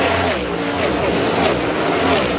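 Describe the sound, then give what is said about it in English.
Race cars speed past on a track in a loud, continuous engine roar whose whining pitch sweeps as they pass. “seeing the cars go by and just seeing like the ridiculous speed in person was insane. We have some of that.”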